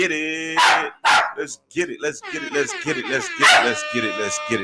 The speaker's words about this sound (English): And that's Rusty, and he here, and he barking, and he ain't caring, and he doing this thing, and it's all organic, this one take.